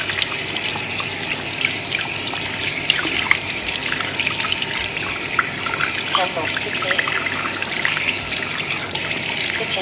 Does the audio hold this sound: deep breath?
no

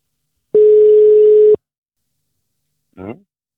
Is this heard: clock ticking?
no

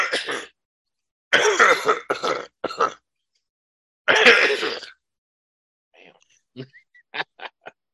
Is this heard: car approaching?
no

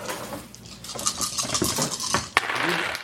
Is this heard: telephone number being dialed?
no

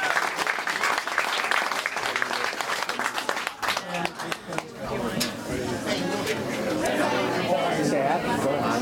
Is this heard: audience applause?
yes

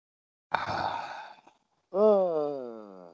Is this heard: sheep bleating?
no

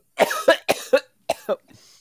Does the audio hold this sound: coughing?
yes

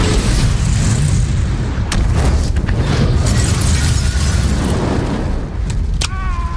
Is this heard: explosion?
yes

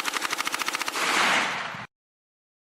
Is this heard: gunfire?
yes

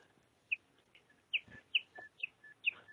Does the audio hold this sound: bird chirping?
yes

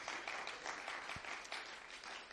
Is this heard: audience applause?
yes

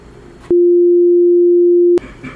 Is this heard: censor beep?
yes

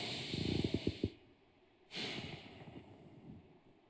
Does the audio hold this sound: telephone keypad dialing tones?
no

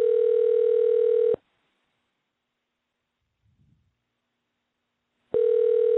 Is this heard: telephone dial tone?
yes

